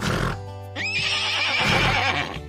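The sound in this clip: A horse whinnies in Lower Austria, one of several grazing on grass, giving a single loud, long call that jumps high and quavers for about a second and a half before trailing off over a low steady hum.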